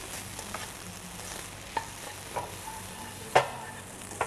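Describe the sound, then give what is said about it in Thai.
Sizzling from rice stir-fried with halved cherry tomatoes in a pan. A steady hiss runs throughout, broken by a few sharp clinks and scrapes of stirring. “ผัดให้ความหอมขึ้นนิดนึงนะ”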